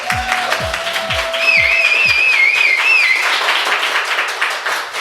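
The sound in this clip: Live audience clapping at a talk event in the Y pop-up store in Berlin, a loud, sustained patter of many hands that continues evenly throughout.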